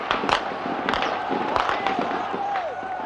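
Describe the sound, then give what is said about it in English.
Automatic rifle fire as troops open fire in the streets around Tiananmen Square in June 1989: repeated sharp cracks burst over a dense, noisy crowd of running, shouting people. “Troops have just opened fire. We've just heard sounds of automatic rifle shots just about 100 yards from where I'm standing.”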